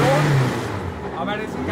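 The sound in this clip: A vintage Super Touring race car engine, a borrowed collector's car being started again after a days-long check at a street circuit in Nuremberg, gives a loud, steady rumble that holds through the whole clip.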